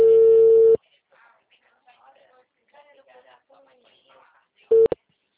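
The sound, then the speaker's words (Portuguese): Telephone tone on a line after a call has dropped: a loud, steady mid-pitched tone lasts under a second, faint muffled talk follows, then the tone returns in one short burst. “A ligação caiu. A ligação do senhor caiu.”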